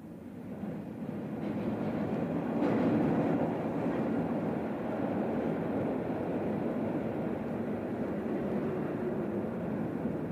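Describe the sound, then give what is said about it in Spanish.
A metro train arrives with a broad, steady rumbling roar that swells early on and then holds at an even, moderate level, with no voices. “allá viene el metro que debo tomar”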